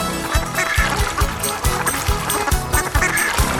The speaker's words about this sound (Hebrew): ובחווה היה ברווז, יאיהו, וגגה פה וגגה שם וגגה גגה כל הזמן לדוד משה